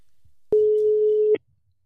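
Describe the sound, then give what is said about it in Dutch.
An outgoing telephone call rings on the line: one steady, pure electronic ring tone lasting under a second, cutting off abruptly into near silence. “we gaan hem gewoon weer eens bellen.”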